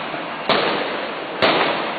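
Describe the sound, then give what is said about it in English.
Two gunshots from video of government security forces shooting at unarmed student protesters in Caracas: loud, sharp cracks about a second apart, each trailing off in a noisy tail. “He's referring to scenes like this one, captured on video, that show government security forces shooting at unarmed student protesters in Caracas last week.”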